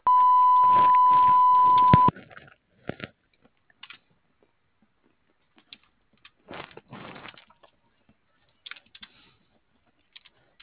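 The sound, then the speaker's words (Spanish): A voicemail beep tone sounds before a message is left, one steady, unbroken tone lasting about two seconds, followed by scattered faint clicks and taps. “Por favor, deje su mensaje después del tono. Si requiere volver a grabarlo, presione el símbolo de número y espere indicaciones.”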